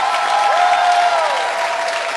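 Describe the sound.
A church audience applauds during Spanish-language worship, a steady wash of dense clapping that stays even in loudness throughout, with a held musical tone sounding underneath.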